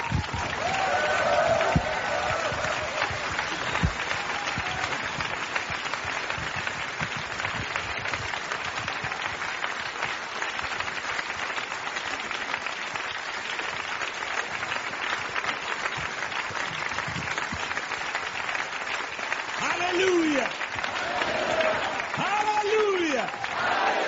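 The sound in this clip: Applause from an audience rising to welcome a returning guest: a dense, steady wash of clapping that holds at an even level across the whole stretch, with a few voices rising through it near the end.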